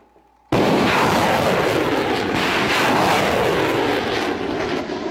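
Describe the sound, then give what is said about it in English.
Missile launch from a Japanese Type 88 surface-to-ship missile system during a maritime strike exercise at Paoay, Ilocos Norte: a sudden loud blast swells into a sustained, rushing roar that holds strong for several seconds. “Dalawang malalaking missile ang inilunsad mula sa Type 88 surface-to-ship missile system ng Japan.”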